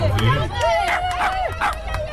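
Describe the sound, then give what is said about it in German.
Dog owners cheering on racing miniature dachshunds at the finish line: excited shouts and calls ring out over steady crowd chatter. “Die Zwergdackel Feli und Josie geben alles auf ihren kurzen Beinen. Damit sie nicht von ihrem Weg abkommen, feuern ihre Besitzer sie im Ziel an.”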